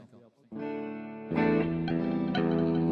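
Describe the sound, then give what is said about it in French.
Sustained electronic tones heavily washed in reverb with some distorted saturation, a layered harmonic chord that swells noticeably louder halfway through, with new notes entering on top. “Ah oui, il y a une reverb. Problème, c'est les niveaux hein, sur ces trucs. Ça sature plus là.”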